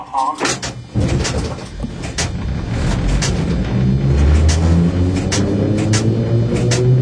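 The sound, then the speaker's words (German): Old Berlin S-Bahn Stadtbahn-type city train running: a steady, broad rumble and clatter with a few sharp knocks early on, then a low motor hum that climbs gradually in pitch as the train gathers speed. “Das ist der gute alte Stadtbahner, ne? Das klingt nach irgendwas Altbau”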